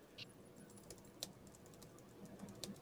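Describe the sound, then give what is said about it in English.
Typing on a computer keyboard: a few faint, scattered keystroke clicks with long gaps between them over a low steady hiss, no voices. “Sorry, I'm going to need at least 5 more minutes to type that.”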